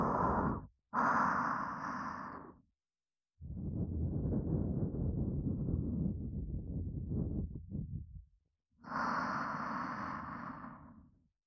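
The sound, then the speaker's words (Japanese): Gentle blowing of breath for ASMR, four soft, airy puffs separated by short silences, the third one long and sustained, with no other sounds around them. “それじゃあふうってしますね。いきますよ。”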